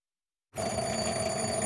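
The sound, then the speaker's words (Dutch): Electric doorbell ringing at a house on the outskirts of a village: a loud, bright metallic ring that starts abruptly and carries on without a break to the end. “We gaan naar een buitenwijk van het dorp en bellen aan bij zijn huis.”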